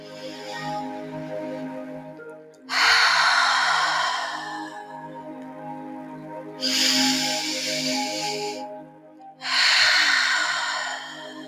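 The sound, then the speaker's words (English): Deep breaths for a full moon meditation, each inhale through the nose and slow exhale through the mouth. Three long, loud breath sounds rise over a sustained, steady tonal music bed. “Go ahead and focus on your breath. Inhale deeply through the nose and exhaling slowly through your mouth.”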